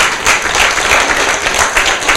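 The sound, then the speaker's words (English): Audience applause at a library event celebrating National Library Week: a loud, dense, continuous wash of clapping that fills the full two seconds with no break and no voices over it. “let's give another round of applause, please, for our team.”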